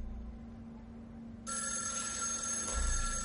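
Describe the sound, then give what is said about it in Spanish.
A telephone ringing in a scene from the 2016 thriller film The Accountant: after a few seconds of low hum, a bright trilling bell starts and keeps ringing steadily to the end, with no voices. “Ambos miran hacia el teléfono.”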